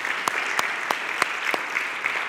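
A church audience claps to welcome new members: a steady series of about seven evenly spaced claps rising out of a dense, constant background wash.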